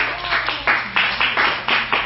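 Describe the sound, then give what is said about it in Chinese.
A church audience claps their hands during a sermon, giving a dense crowd patter with fairly steady beats about four per second, moderately loud and continuous. “可以的话将荣耀拍手归给上帝。”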